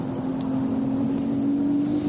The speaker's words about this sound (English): Here is that Aston Martin. I do love the car.